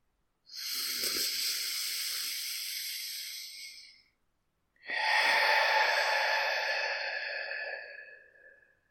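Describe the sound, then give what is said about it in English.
Deep breath drawn in through the nose and let out through the mouth: two long, airy, hissing breaths of about four seconds each, separated by a brief pause and heard alone. “I just want you to take a deep breath in through your nose and out through your mouth.”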